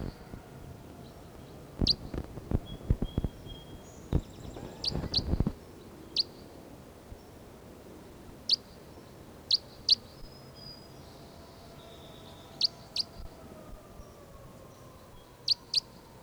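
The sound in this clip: Sharp, high bird chirps ring out one at a time at irregular intervals during a field recording, many short calls spread across quiet background hiss, with a cluster of dull knocking clicks near the start.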